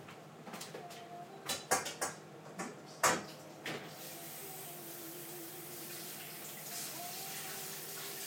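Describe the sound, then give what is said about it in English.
Tap water running while broccoli is washed: a few knocks and clatters at first, then a steady, even hiss of flowing water through the second half. “Let's wash this broccoli now.”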